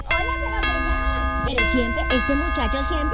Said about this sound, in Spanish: Espérame, que están timbrando.